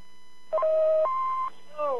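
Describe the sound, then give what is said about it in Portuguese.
An answering machine gives its electronic beep signal as two clear steady tones, a lower one for about half a second and then a higher one of similar length. A short voiced sound follows. “após o sinal, diga seu nome e a cidade de onde está falando.”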